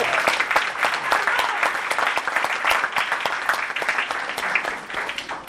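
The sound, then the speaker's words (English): An audience applauds the parents of student athletes, giving loud, dense clapping with many sharp hand claps that runs steadily before tapering slightly at the end. “So I just want to make sure that the parents get that congratulations just as much as the athletes themselves. You want to give the parents a hand?”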